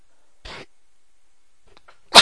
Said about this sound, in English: Excuse me. Apologize. I sneezed in your ear.